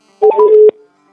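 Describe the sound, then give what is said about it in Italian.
A telephone handset dials a number with a quick, loud run of touch-tone beeps lasting under a second, alone with no talk. “E io intanto piglio la cornetta, sì, e lo vado a chiamare.”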